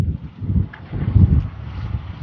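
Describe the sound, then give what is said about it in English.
A northeast wind, strong enough to wave a flag, buffets the microphone outdoors. Low, rumbling gusts rise and fall a few times with no voices. “Oh, the wind has picked up. There was just barely a little bit of breeze when I came out. And now it's a pretty good flag waving”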